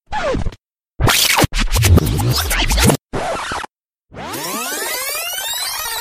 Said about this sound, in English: Rewind noise.